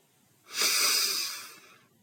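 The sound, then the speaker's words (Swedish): A single deep breath drawn in through the nose, a steady airy hiss that swells and fades over about a second, heard alone. “Men ta ett djupt andetag in genom näsan”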